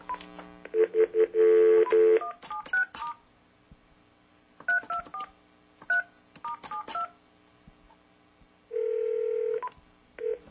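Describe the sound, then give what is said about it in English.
Telephone dialing tones: a steady tone, then many short touch-tone beeps in quick clusters, ending on a longer sustained tone, with no voices. “We're dialing over.”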